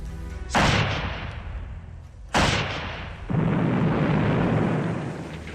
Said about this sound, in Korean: 놈들은 더는 들어올 엄두도 못 내고 총을 쏘고 수류탄을 뿌렸다.